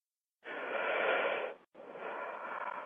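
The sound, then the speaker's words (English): A deep breath, two long airy rushes of breath separated by a brief pause, soft and heard alone. “Take a breath.”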